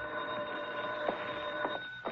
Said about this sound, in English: Then, 2 days later, I got a phone call.